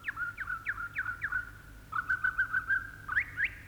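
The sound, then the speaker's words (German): Bird song made of clear, high whistled notes repeated in quick, rhythmic phrases: a few sharp downward chirps, then a faster run of similar notes, and two rising notes at the end, all fairly faint. “Ein Vogel singt.”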